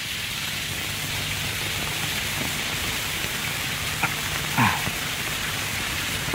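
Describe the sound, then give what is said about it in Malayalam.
Heavy rain falls as a steady, dense hiss with no letup, broken only by a couple of faint knocks near the end. “എന്തൊരു മഴ! തൊഴുത് പുറത്തിറങ്ങിയപ്പോ തുടങ്ങിയതാ. മീനമാസത്തിലെ മഴ എവിടെയെങ്കിലും കേട്ടിട്ടുണ്ടോ?”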